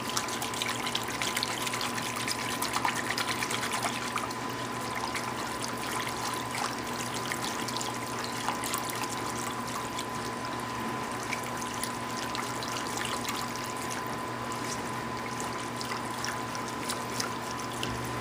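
Milk pours into a pan that holds butter and flour, making a steady trickling, splashing stream that runs without break, with a faint low hum underneath.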